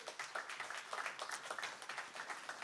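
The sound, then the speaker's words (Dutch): Applause from a jazz concert audience welcoming the drummer: dense, continuous clapping of many hands, fairly faint and steady for the whole stretch, with no voices over it. “Hebben we Alvin Manuhuwa, geef een applaus.”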